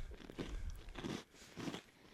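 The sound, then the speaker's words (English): Someone bites into an orange cream Oreo cookie: a few faint, crunchy bites and chews in a loose rhythm, with no voices. “It's orange, the white cream, but it's orange. It smells like pumpkin. It tastes like an Oreo.”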